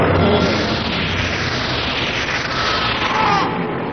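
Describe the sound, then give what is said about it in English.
Gunfire from a man shooting wildly at a Yeti, heard as a loud, continuous roar of blasts with no clearly separate shots, steady throughout. “Using the last of his ammunition, Lane fires wildly at the Yeti”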